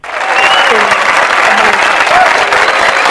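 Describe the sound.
Dense applause from an audience, loud and steady for the whole stretch, with no break in the clapping.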